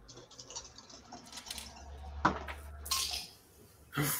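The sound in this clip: Dice rolled for a tabletop game clatter in a few short, faint rattles and clicks over a low steady hum, with quiet gaps between the bursts.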